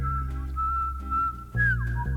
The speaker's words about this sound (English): that dude can whistle.